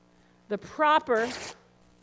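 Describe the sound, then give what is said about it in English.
Fabric tears along its grain in a few short, raspy ripping bursts, each rising and cutting off quickly within about a second. “the proper grain and make it very, very straight is that ripping, that tearing. But why did I do that this morning? I did that because I wanted you to hear that. That tear, that ripping.”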